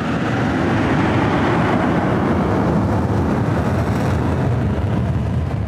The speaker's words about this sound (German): Am Medienanlass auf dem Militärflugplatz Bayern starten FA-18 Kampfjets in den blauen Frühlingshimmel.